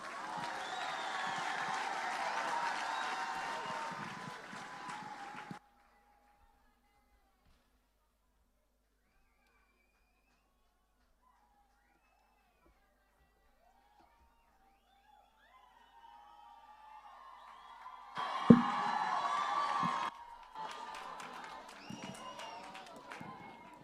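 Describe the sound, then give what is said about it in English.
Audience applause at a church service welcomes a performer, a dense wash of clapping for about five seconds, then a long silence before crowd noise and voices return. “Ladies and gentlemen, let's put our hands together and welcome in the house tonight, Joe Angels from Botswana.”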